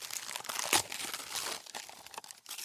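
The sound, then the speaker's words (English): Paper tearing and crinkling as a letter is ripped up, a continuous rustling rip with one sharper, louder burst early on. “And wouldn't you know, today's mail, there's another letter with your name on it. I'm just tired of it. I'm just going to keep ripping it up. Every time I get your mail, I'm going to keep ripping it up.”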